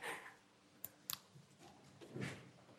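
A presentation clicker is pressed twice, two short, sharp clicks a moment apart, faint against a quiet hum.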